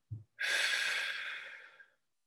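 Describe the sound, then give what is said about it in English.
Someone takes a deep breath during meditation: a brief low sniff, then a long, airy exhale that swells and slowly fades, heard alone in quiet. “Take another deep breath. Let it go.”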